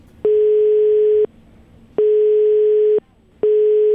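Ringback tone of an outgoing phone call: loud steady beeps at one pitch, each about a second long and separated by short pauses. Three are heard, the last cut off, with no talk.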